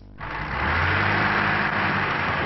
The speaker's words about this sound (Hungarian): Hóban elakadt kamionok próbálnak kijutni a szorult helyzetből Svédországban, szinte minden 100 méteren.